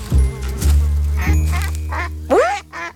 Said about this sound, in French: quand il entend... Oh. Tiens, des canards.